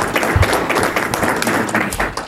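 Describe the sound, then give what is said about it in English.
Audience applause for panelists at the close of a panel session: dense, steady clapping from many hands that fills the whole moment at an even level. “And how about a round of applause for our panelists?”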